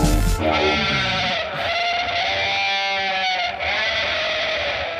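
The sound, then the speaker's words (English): Sheep bleat with a heavily distorted, buzzy timbre like an electric guitar, one long wavering tone held for several seconds, loud throughout. “What's that? Electric guitar? That's like a sheep if you ran it through an electric guitar.”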